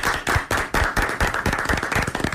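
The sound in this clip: Hands clapping in applause: many sharp, fairly even claps in a quick, steady rhythm, loud and alone with no voices.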